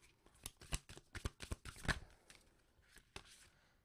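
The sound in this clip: Shuffling and drawing an Earthcraft oracle card: a dense run of quick, crisp papery riffles and snaps, followed by a few sparser taps as the card is pulled, with no voices.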